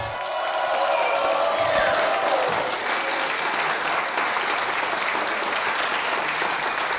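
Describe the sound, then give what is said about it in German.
Applause and crowd noise from the guests gathered for a dance night at the Bachschmiede in Waldsitzenheim, a dense, steady wash of clapping that holds at an even level throughout. “Sie hören es, liebe Hörerinnen und Hörer, es haben sich wieder viele Tänzer hier versammelt.”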